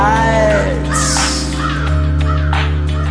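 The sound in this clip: A crow gives several harsh, rasping caws over loud, steady sustained musical tones, with the calls clustered in the second half.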